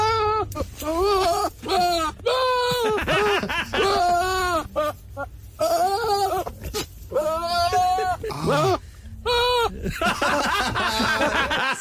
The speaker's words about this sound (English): it's a very particular goat called Huckleberry. And when Huckleberry is a little bit ratty and he wants his dinner or his breakfast, this is the noise Huckleberry makes when his owner is nearby.